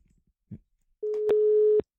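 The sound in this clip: A telephone ringing tone as an outgoing call is placed: a soft click, then one steady mid-pitched beep lasting under a second, followed by silence.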